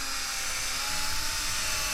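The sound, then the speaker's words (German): A small drill bores a shallow hollow, throwing out chips as it cuts. It makes a steady, bright, high whine that runs unbroken and evenly loud for the whole two seconds, with no talk. “Oh, und da bohrt es schon klasse, rein. Da kommen schon das die Späne reicht, ne? raus.”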